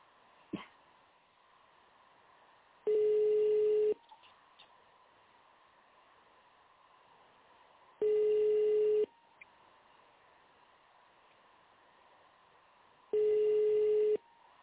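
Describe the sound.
Telephone ringback tone while a call to a restoration and construction company waits for an answer. Three steady one-second tones sound about four seconds apart over a faint, constant background hum.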